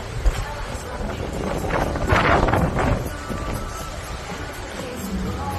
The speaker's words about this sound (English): It's still raining. But plenty of wind.